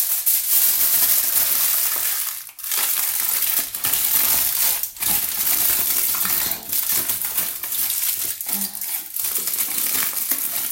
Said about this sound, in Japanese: アルミホイルはちょっとくしゃくしゃにしてしまおうと思います。